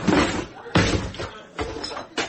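Heavy knocking and banging on a door: four loud, thudding blows, unevenly spaced, each with a short ringing tail.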